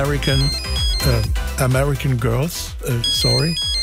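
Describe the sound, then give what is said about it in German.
A mobile phone rings with a loud, melodic ringtone, bright repeated tones sounding continuously over a sung, voice-like melody. “Mann, mein Handy nicht ausgemacht. Moment, ich gehe mal dran.”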